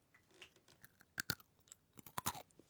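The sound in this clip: Crunchy fried sweet potato is chewed with quiet, irregular crackling, punctuated by a few sharp, louder crunches as bites break the crisp surface.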